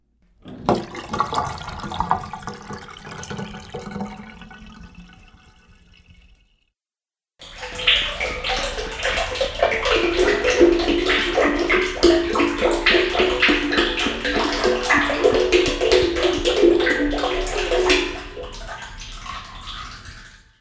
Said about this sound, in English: If you guessed water and oil, you were right. And if you guessed that the oil is going into a recycling drum, you know the right way to dispose of used motor oil.